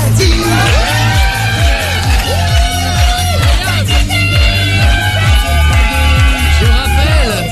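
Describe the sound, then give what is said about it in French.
A concert audience cheers, whoops and shouts loudly for a performer. The crowd noise stays dense and unbroken, with regular low thumps pulsing beneath it. “Regarde, le public est conquis. Oh, le public est à fond.”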